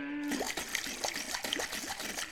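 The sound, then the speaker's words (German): Raw milk sloshing as it is shaken in a screw-top glass jam jar, a fast, steady run of splashing pulses that fills the whole clip at moderate loudness, with no talking. “Ihr schüttet einfach ein bisschen frische Rohmilch aus der Milchkanne in ein Marmeladenglas und schraubt den Deckel fest zu. So. Und jetzt einfach schütteln.”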